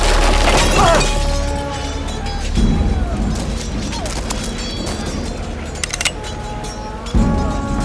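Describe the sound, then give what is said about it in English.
Stairs collapse under a limping man's feet: a crashing, rumbling burst of breaking noise that stays loud and rough throughout, with a few sharp cracking hits scattered through it. “As Lore limps to the mystery visionary, the stairs collapse under his feet.”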